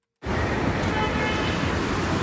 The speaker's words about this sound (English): soothing sounds, right? That's traffic. Running smoothly or fairly smoothly on Portage Avenue just a few minutes ago.